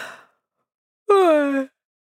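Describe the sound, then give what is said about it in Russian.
A single voiced yawn, drawn out for about half a second with a gliding, falling pitch, heard alone after a brief breathy sound and a pause of silence. “Я не выдержала и зевнула.”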